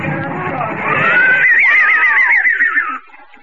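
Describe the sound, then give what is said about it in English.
Horses of a four-horse caleche: after a low rumbling start, one loud, high neigh rings out with a quavering, wavering pitch that drifts slightly downward before cutting off. “A caleche with four horses had drawn up beside us.”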